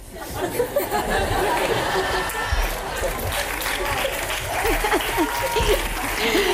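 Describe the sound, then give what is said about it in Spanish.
An audience at a hip hop show laughs and applauds with no music playing. Dense clapping runs throughout, with bursts of laughter and crowd chatter mixed in. “esto oyente de Radio 3, no te lo esperabas en un espectáculo de hip hop, de repente no hay música y hay muchas risas y aplausos de los espectadores.”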